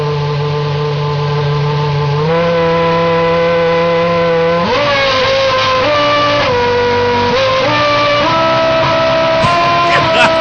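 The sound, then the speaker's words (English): A Formula One car engine warms up with a loud, steady, high-pitched harmonic drone. Its pitch steps up and down a few times as the revs shift. “This is an F1 motor warming up.”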